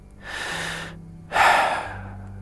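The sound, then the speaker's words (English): A man takes a deep breath: two long, airy breaths in quiet, the first softer and the second louder and fuller, with a short pause between them. “He takes a deep breath.”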